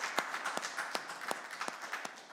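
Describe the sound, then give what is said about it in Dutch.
Audience applause greeting a welcomed guest: a fairly faint, steady patter of clapping with several sharper claps standing out at irregular points, and no voices over it. “Geef die zuster een applaus.”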